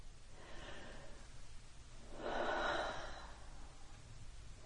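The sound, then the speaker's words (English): A single deep breath taken during a guided relaxation exercise: a soft, breathy rush that swells for about a second midway, faint and alone over low background hiss. “So, take a deep breath.”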